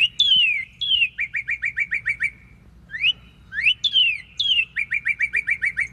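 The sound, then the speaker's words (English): Northern cardinal main song: clear, loud whistled downslurred notes followed by a rapid run of short repeated chirps, given as two similar phrases separated by a brief pause, with no voices. “So this one is all annotated. This is just a main song.”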